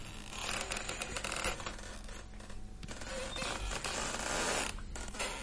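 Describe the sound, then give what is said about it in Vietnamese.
Grating creaks of tightly driven nails being pried out of a wooden coffin lid with a crowbar in a graveyard, a harsh, continuous scraping and squeaking that stays fairly faint throughout. “người ở dưới cái mộ huyệt dùng xà cày bảy từng chiếc đinh được đóng chặt tấm ván thiên. Những tiếng ken két vang lên ở trong bãi tha ma lạnh lẽo”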